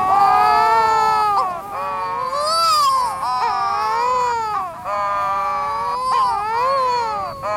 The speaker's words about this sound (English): wedge-tailed shearwaters sit facing one another on the ground and puff up their throats to perform long duets of eerie wailing